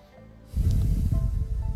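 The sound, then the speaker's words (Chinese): Deep breath taken in a calming exercise: after a quiet start, a loud, rushing, breathy exhalation with a slightly snorting, airy texture sustains to the end. “来，记住三次深呼吸，来吸气。吐气，来再吸气，”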